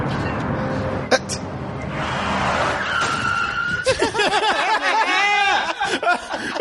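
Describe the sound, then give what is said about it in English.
A car skids and strikes a man in a film scene: harsh tire screeching with wavering, squealing tones and a couple of sharp bursts early on, under voices. “This guy just hit by a car.”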